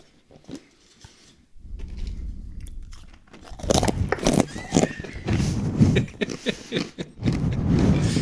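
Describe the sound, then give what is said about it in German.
Crunchy chewing of dried banana pieces: loud, repeated crisp bites and crunches in an uneven rhythm, starting after a short quiet opening and continuing steadily with no talk. “hier stehen getrocknete Banane im Glas, direkt griffbereit. Können wir aber jetzt während dem Podcast nicht, weil ich das mache dann so. Warte mal, ich probiere das mal.”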